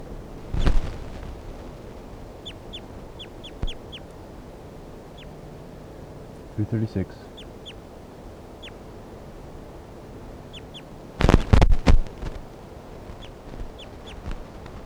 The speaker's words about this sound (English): This is bird 336.